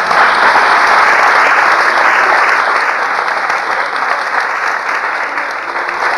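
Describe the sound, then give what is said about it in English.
An audience applauds with dense, loud, sustained clapping during a talk by a priest marking fifty years of priesthood. The applause holds steady and eases slightly toward the end. “I knew we'd waste time clapping like that.”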